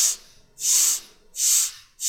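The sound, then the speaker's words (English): Air is drawn in through one nostril while the other is pressed shut, a few short, soft hissing breaths in a steady rhythm. “I took my forefinger, placed it against my right nostril. You can do the same, and all listeners can do the same. And you breathe into the count of four.”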